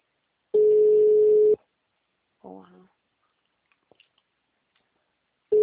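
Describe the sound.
A steady, mid-pitched telephone ringback tone plays while a call is being placed. It comes as one long pulse followed by a few seconds of quiet, and a new pulse begins at the end. A brief voice is heard in the gap.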